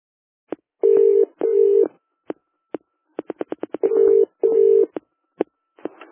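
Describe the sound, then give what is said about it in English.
Keypad tones ring out as a telephone number is dialed, with four sustained electronic beeps among many sharp, quick clicks, in otherwise quiet surroundings. “Dialing.”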